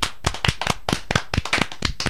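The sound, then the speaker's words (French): An audience claps in support of a speaker at a gathering. Many distinct, fairly loud hand claps come in an irregular, continuous patter. “Merci beaucoup, Darty, et pour te soutenir, on va t'applaudir un petit peu.”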